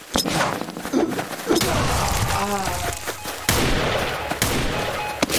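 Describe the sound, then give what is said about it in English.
Grenade explosion sound effects: several sharp, booming blasts and thuds burst out of a noisy, rumbling background, with a brief ringing warble in the middle. “Grenade two.”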